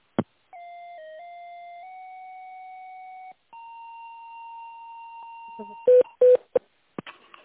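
Telephone line tones as a call is transferred during a sales call: a steady electronic tone with slight pitch steps, then a second long held tone, followed by a few short bright beeps and clicks.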